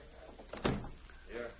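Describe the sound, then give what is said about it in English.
A door to a cafe is shut with one short, soft thud. Faint voices can be heard just after. “close that door to the cafe”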